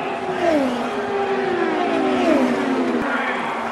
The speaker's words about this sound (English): holding off Helio Castroneves and Ed Jones in the final lap to get the win. Castroneves tries to close. Sato tries to defend. Two corners until the checkered flag.